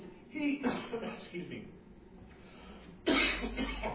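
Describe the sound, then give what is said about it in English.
Coughing and throat clearing from a preacher who has choked on spit: a few harsh, rough bursts, the strongest near the start and another loud one near the end, with quieter breathy sounds between. “As I choked on some spit, I breathed in when I was talking out, and I just got choked on some spit.”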